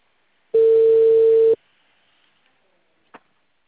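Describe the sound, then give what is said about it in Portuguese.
Telephone ringing tone while a call connects: a single steady buzzing tone lasts about one second, followed by near silence and one brief faint click. “Agora tá chamando.”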